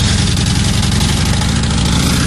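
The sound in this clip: Motorcycle engines running during a long group ride of eighteen riders nearing New Orleans, heard as a steady, loud, low-pitched rumble with dense harmonics and a slight throb, with no voices.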